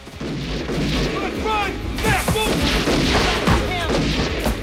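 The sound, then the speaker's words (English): Gunshots blast through an apartment front door: loud, booming bursts, the heaviest arriving midway, ride over a dense, continuous roar of noise. “A shot blows a hole through Julie's front door. Marcus grabs her by the wrist and drags her across the apartment. three of Fouché's men burst in, taking pot shots at them.”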